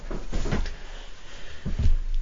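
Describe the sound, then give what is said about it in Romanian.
A balcony door being closed gives two dull thumps a little over a second apart, with soft rustling and handling noise between them. “să închid ușa. Ușa spre balcon.”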